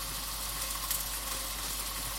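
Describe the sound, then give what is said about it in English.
Water boiling in a pan on a stove, ready for noodles, gives a steady, even hiss of rolling bubbles that holds at one level throughout, with no voices. “Right, so my water's boiling.”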